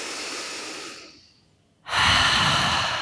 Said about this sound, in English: a big exhale out through an open mouth. Really make a sound. Let's do this 2 more times. Deep inhale and exhale it out.